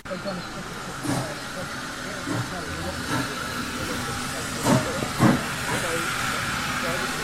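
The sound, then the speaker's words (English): Steam locomotive number 65, a class 01 engine, blows off its safety valves at a station while standing with its carriages, a steady broad hiss that holds even throughout, broken by a few brief louder bursts near the end. “This is the sound of the 01 locomotive, number 65, just coming gently back onto its train of carriages here at Swanage Station.”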